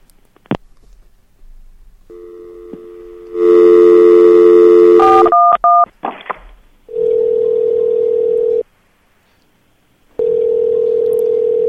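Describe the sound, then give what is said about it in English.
Telephone dialing a call to directory information: a steady dial tone, then a few short keypad beeps, then two long, steady ringback tones separated by a silent gap. “She dialed 411, and I thought she dialed 911.”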